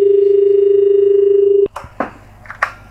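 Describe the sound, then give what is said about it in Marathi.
A steady, unbroken telephone line tone hums as a radio call-in caller connects. It cuts off abruptly and gives way to a few short clicks and crackles on the line. “तर आपण कार्यक्रमातला पहिला phone घेऊया.”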